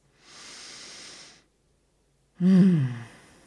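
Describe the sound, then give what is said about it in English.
A deep breath: a long, soft, airy inhale, a short pause, then a louder exhale that carries a low voiced sigh and fades out. “Well, that breath, it had relief to it, space. It was more allowing. It had more flexibility.”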